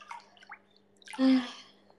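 Hot water being played with: faint light drips and trickles, then one brief, louder splashing swish of water that quickly fades.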